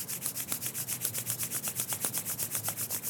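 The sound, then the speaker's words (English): Palms rubbing briskly together during a self-massage exercise: many quick, even strokes of dry, rasping friction in a steady rhythm. “Rub the palms once more.”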